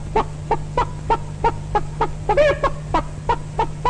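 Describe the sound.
Chickens and other poultry cluck in a henhouse on a hazy, hot afternoon. A steady series of short, evenly spaced clucks runs throughout, with one longer, warbling call near the middle, over a constant low hum.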